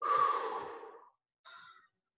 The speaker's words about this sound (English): take a deep breath and hold it in for a couple of seconds. And then blow it out.